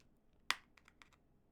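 A sticker seal on a product package is peeled open with a fingernail: one sharp, bright crackling snap, then a few faint, scattered clicks over quiet background.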